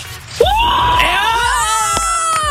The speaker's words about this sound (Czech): Pokaž, jakou máš radost, zakřič!